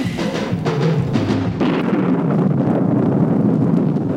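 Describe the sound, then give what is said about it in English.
Sound effect of a hydrogen bomb exploding in outer space on a novelty comedy record: a loud, dense, sustained roaring rumble with a hissing edge that fills the whole stretch, with no talk. “A hydrogen bomb has just exploded in outer space, releasing Superman's enemies, the Krypton criminals.”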